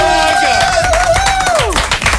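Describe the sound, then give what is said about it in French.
Loud studio applause on a French radio show after a visit from a vocal trio, with brisk clapping throughout and a sustained melodic tone running above it that slides downward near the end. “Applaudissements.”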